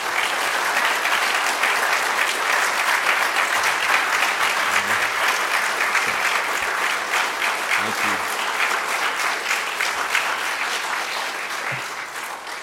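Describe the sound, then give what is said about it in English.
An audience applauds to welcome a speaker at a church gathering. The clapping is dense and sustained, holding at an even level for about twelve seconds before easing slightly toward the end. “let's put our hands together and welcome tonight's speaker, Kelly Shackelford.”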